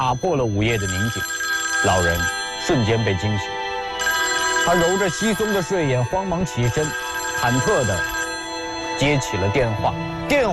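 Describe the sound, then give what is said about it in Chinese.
An urgent telephone ring in a quiet home at midnight: loud, shrill ringing in repeated long bursts, with other wavering, voice-like tones sounding along with it. “突然一阵急促的电话铃响”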